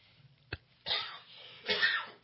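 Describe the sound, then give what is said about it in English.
Coughing after choking on something: a faint click, then two harsh, breathy coughs in quick succession, the second slightly longer, with no talking. “excuse me, I choked.”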